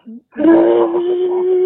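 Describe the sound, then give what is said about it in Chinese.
A woman cries in a loud, drawn-out wailing moan at a steady pitch, preceded by a brief short sob. “大姐呀，您别哭，哦，别哭。别激动啊！”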